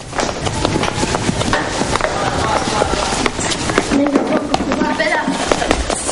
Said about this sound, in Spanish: Dos niños bajan corriendo por las escaleras.